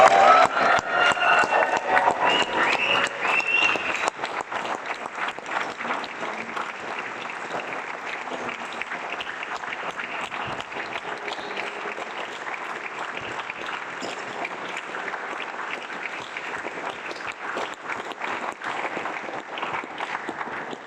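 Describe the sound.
Warm welcome applause for an opening speaker at a gathering: a crowd claps densely, loudest over the first few seconds, then continues at a steady, slightly lower level with a few faint voices mixed in.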